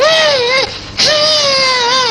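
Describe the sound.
A young girl crying in two long, loud, high-pitched wails with a wavering pitch and a short catch of breath between them, with no words.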